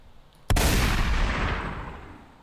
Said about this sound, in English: Y'all have no idea how much I love this shotgun blast.